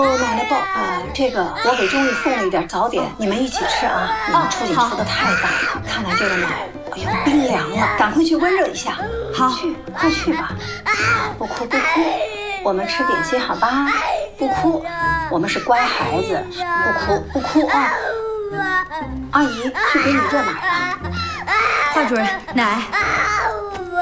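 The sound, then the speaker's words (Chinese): A young child cries hard and without pause, wailing and sobbing loudly for the whole stretch while adults talk over the crying. “这孩子怎么哭成这样啊？”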